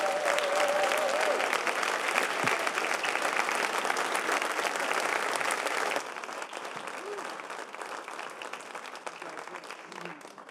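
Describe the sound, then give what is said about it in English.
Sustained, dense applause from a church conference audience welcoming a pastor to the stage. The steady clapping continues throughout, eases slightly about halfway, and has a few voices mixed in. “would you put your hands together and give them a warm house welcome? Pastor Joy.”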